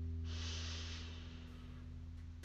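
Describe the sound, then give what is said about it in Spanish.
A deep breath drawn in through the nose or mouth, a soft, airy hiss lasting about a second over a steady low hum. “Respira profundamente. Inhala.”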